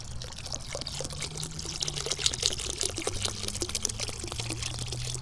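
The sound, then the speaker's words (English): Water pours into an outdoor bird bath holding leaves and a little water, making a steady, fairly faint splashing trickle with scattered small crackles and no voices. “That's the sound of the bird bath getting filled up with water.”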